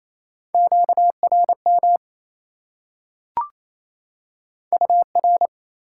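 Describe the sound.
Morse code tones at 28 words per minute spelling out a word: crisp beeps at one steady pitch in two quick groups, separated by a pause and a single brief click.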